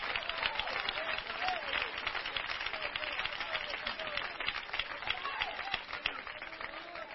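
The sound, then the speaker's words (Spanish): Applause from a church audience during a sermon, steady dense clapping that keeps an even level throughout, with a voice speaking over it. “Oiga, ese aplauso es para Donald Trump, ¿verdad, hermanos?”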